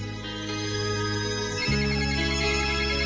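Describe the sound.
A telephone ringtone sounds while a caller waits for someone to pick up: a steady electronic tone with stacked harmonics, shifting midway to a louder, lower-pitched phrase, with no voices.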